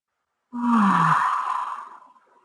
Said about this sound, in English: Deep breath in and center ourselves.